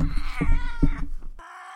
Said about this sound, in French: Je précise qu'aucun chat n'a été torturé dans cette séquence, elle est comme ça tout le temps.